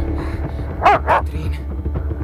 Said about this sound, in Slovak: Okamžite chyť toho psa